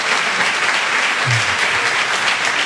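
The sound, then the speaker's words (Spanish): Applause for a guest on a radio programme: dense, even clapping that fills the whole stretch at a steady level without a break. “acabas de arrancar el aplauso de un programa de radio”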